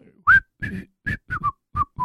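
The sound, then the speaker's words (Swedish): A person whistling a tune, the habit of someone who wanders around all day whistling: a few short, clear, fairly high notes in a loose, bouncy rhythm, separated by brief silences, with no voices. “Lillfinger som alltid går och visslar, alltså så liksom.”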